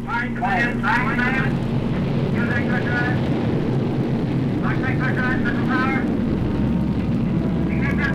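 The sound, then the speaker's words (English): A Jupiter C rocket launches Explorer 1 into orbit with a loud, continuous roar that holds steady throughout, while narration runs over it. “Washington finally permits the Army agency to make available the Jupiter C. 84 days after the launch of Sputnik 2, we reply to Moscow.”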